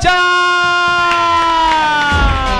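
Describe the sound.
A studio audience cheers and whoops loudly to welcome a guest onto a show. The dense, continuous crowd noise carries a sustained high ringing tone.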